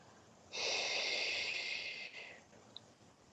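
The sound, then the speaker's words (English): A deep exhale during a breathing exercise, a strong steady airy rush that begins abruptly and lasts nearly two seconds before tapering off into quiet. “Fill yourself with as much oxygen as you possibly can. And then exhale all the way down to your toes.”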